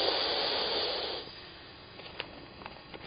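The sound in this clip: A long, breathy exhale during a breathing exercise, a loud, steady hiss of air that stops abruptly after about a second, leaving a quiet background with a few faint clicks.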